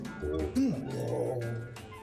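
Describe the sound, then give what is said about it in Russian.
An old man purrs like a cat, a voice imitating the sound with a low, steady, throaty hum that briefly swoops up and back down in pitch partway through, then drones on evenly. “Че ты мурлычешь?”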